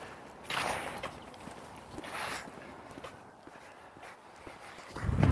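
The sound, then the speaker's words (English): Footsteps walking past a microphone post, a few soft, spaced steps scuffing by, followed by a louder low thud at the end. “I just walked past the mic post.”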